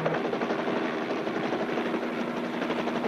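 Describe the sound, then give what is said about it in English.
Helicopter rotor and engine noise from a news chopper in flight over a house, a loud steady roar with fast throbbing chop that holds unbroken throughout, with no voices. “We're in a helicopter right now. We're right above your house.”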